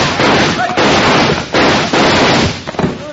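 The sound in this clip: Gunfire from a shootout in a radio drama: a rapid run of loud, harsh blasts that follow one another with almost no gap and fill the whole short clip.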